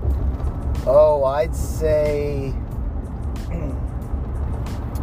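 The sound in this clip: A car drives on the road, giving a low, steady rumble of engine and road noise throughout. A person talks over it for the first few seconds.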